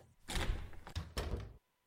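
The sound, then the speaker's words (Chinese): A door being opened, giving a few soft knocks and clunks in quick succession before the sound stops and silence follows. “开门！”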